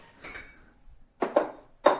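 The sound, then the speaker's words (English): A wooden spoon taps on a pot in a kitchen, making a few dull, hollow knocks spaced unevenly. The taps are faint, with no talk over them. “You got like a wooden spoon and a pot?”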